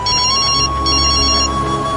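A mobile phone rings in the early hours of the morning, two short bursts of a bright, trilling electronic ring separated by a brief gap over a steady tone.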